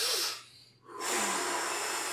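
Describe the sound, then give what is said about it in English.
A deep breath during a guided breathing exercise: a long, breathy, hissing inhale that fades to a brief pause, then a steady, airy exhale that holds to the end, moderately quiet with no talk. “Just breathe with me, okay? Three deep breaths.”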